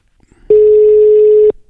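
Telephone ringback tone on an outgoing call, a single loud, steady mid-pitched beep lasting about one second, then quiet.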